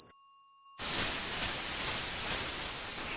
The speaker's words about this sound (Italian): Che senso ha parlare di acufene se non possiamo sentirlo anche noi che non lo conosciamo? Andiamo.